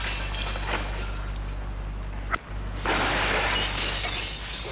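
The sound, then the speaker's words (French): Kicks against a glass window pane to force it open: one sharp impact, then a loud, sustained noisy burst, all over a steady low hum. “Gilles donne des coups de pied à la vitre. Pour l'ouvrir.”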